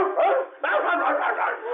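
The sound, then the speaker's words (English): A person imitates a dog with a voiced bark-and-howl: a short yelp, a brief pause, then a longer wavering howl-like cry, all in a thin, band-limited tone. “did you just bark?”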